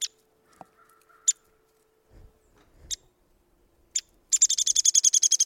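Downy woodpecker calls: several sharp, high, isolated notes spaced apart, then a fast rattling run of rapidly repeated bright notes that carries to the end.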